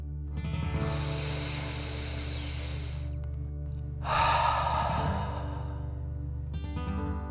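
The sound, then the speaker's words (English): Breath-of-fire breathing exercise: a long, hissing breath drawn in through the nose, then after a short pause a louder, forceful rush of air pushed out through the mouth. “Breathe in through your nose and breathe fire out of your mouth. Again, deep breath in and out.”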